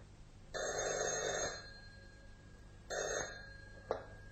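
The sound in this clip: A telephone bell rings in two bursts, the first about a second long and the second shorter, and a sharp click follows.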